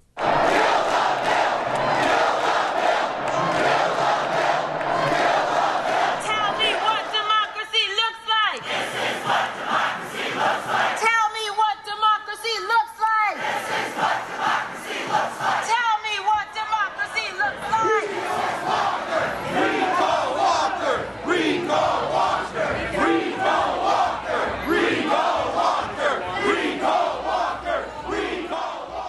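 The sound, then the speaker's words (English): Tens of thousands of Act 10 protesters chant at the Capitol. The rhythmic crowd voices stay loud and continuous throughout, with a few short stretches where the sound thins out before the chanting swells again. “Now, as we remember, Act 10 drew tens of thousands of protesters to the Capitol, people who were passionately opposed to Act 10. And here's a clip of sound from that from 3 years back.”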